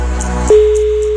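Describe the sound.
A steady electronic telephone tone sounds during a radio call-in prize game as the station calls a listener. A low background hum plays first, then the loud, unbroken tone enters about halfway through and holds to the end.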